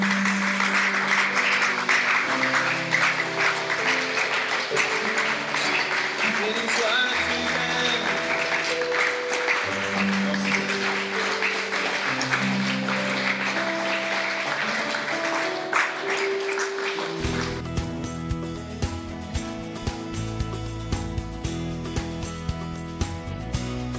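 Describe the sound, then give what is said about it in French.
Church audience applauding and acclaiming the Lord, a dense, steady wash of clapping that runs unbroken throughout, mixed with sustained musical tones that shift in pitch. “Que quelqu'un dise Amen, Amen, Amen et acclame le Seigneur.”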